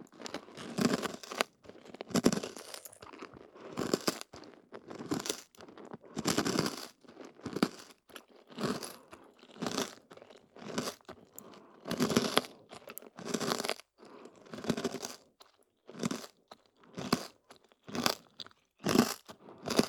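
Someone crunches and chews a fairly large snack, producing many crisp, irregular crunches and softer chewing sounds, faint and without talk.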